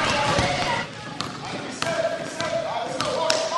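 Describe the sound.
A ball bouncing repeatedly as boys play, with a few sharp thumps spread across a dense, noisy background where voices are heard throughout.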